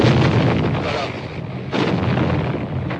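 Bullets strike during street fighting with a tank turret nearby in November 1956, amid a dense, loud, unbroken crackling roar of gunfire that drops briefly in the middle before surging back.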